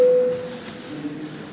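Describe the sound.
A parliamentary voting-mode signal sounds as a brief, steady electronic tone at the start, then fades into low hum and faint room noise.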